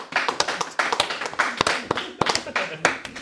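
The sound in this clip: Clapping hands make many sharp, irregular claps in quick succession, with voices talking under them.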